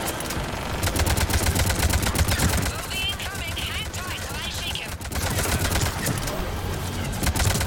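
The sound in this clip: Rapid automatic assault rifle fire with an extended barrel in a shooter video game, fired in several long bursts separated by short pauses. The shots are sharp and crackling.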